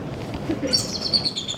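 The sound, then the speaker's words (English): Bald eagle calling at a zoo in winter: a brief run of thin, high chirping notes rises out of a steady low background noise. “the bald eagle calls us away from the otter exhibit.”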